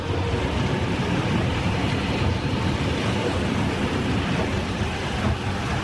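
A car drives through the city at night, giving a steady, unbroken rumble of engine and road noise that stays constant throughout.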